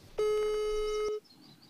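A telephone ringback tone sounds as a caller waits for an answer: one steady, clear electronic tone holds for about a second and then stops, leaving only faint background hiss.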